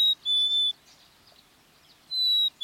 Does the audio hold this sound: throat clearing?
no